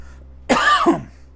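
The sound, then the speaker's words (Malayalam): A single throat-clearing cough from a man pausing mid-talk, breaking into two quick rough bursts, loud against an otherwise quiet background with no speech. “ഈ ചുമക്കുന്നൊന്നും ഞാൻ cut ചെയ്യാൻ പോകുന്നില്ല കേട്ടോ അത് അങ്ങനെ തന്നെ കിടക്കട്ടെ”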